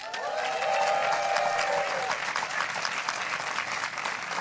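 Audience applause greets a performer at a late-night storytelling show recorded during Pride Month: dense, steady clapping from a crowd that carries on throughout.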